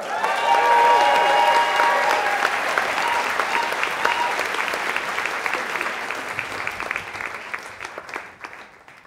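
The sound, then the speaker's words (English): An audience applauds a speaker coming onto the stage at a storytelling event: loud, dense clapping with a few cheers at the start, gradually thinning and fading to scattered claps by the end. “Please welcome to the stage, Sinead Burke.”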